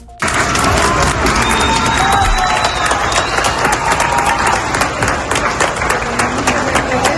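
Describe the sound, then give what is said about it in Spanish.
A crowd at Valencia airport in Carabobo, Venezuela, applauds returning emergency teams. The clapping is loud, dense and continuous, with cheering and a few whistle-like tones over it. “A los equipos de emergencias los esperan entre aplausos y lágrimas después de haber visto de primera mano la devastación que ha dejado el doble terremoto en Venezuela.”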